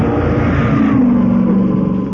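An Alfa Romeo Berlina family sedan's engine revs in a short, loud burst of mid-pitched engine roar that holds steady with no voices.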